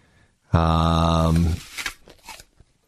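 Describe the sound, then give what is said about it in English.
An Apple device sound effect: a single buzzy, harmonically rich tone held for about one second, followed by brief, softer irregular sounds. “oh, it was an Apple sound effect. I got it. That went through me.”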